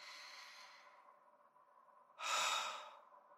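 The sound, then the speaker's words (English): Quiet deep breathing with no talk. A long, airy exhale fades away, and after a pause a stronger, rushing breath follows. “Take some deep breaths.”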